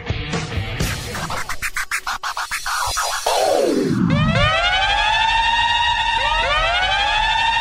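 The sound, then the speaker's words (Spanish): Siren wailing in loud, repeating up-and-down sweeps rich in harmonics, taking over after a stretch of noisy clatter and a single falling sweep. “Suena la sirena en Al Fin Solos.”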